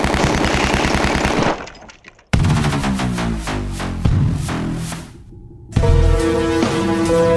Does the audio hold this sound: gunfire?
yes